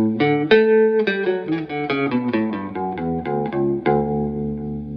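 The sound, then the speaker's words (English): Bass line on a Fender/Squier Bass VI using the neck pickup with the strangle switch engaged: a rapid run of many clean plucked notes with a soft, slightly thinned low end, ending on one sustained ringing note. “Now, if I play that same line with the neck pickup but with the strangle switch, it sounds like this.”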